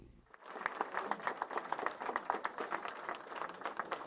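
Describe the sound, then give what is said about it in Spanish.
Audience cheering and applauding as Senator Scott arrives at an event in a city councilwoman's offices in West Miami: dense, steady clapping with mixed cheers that starts abruptly and holds at an even level for about four seconds. “Con vítores del público presente, fue recibido el senador Scott en este acto que tuvo lugar en las oficinas de la concejal de la ciudad de West Miami, Rebeca Sosa”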